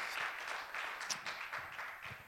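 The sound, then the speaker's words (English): A church audience applauds with a faint, continuous patter of many hands clapping that stays fairly even throughout. “Three Sundays in a row. That's awesome. God bless you. We applaud that.”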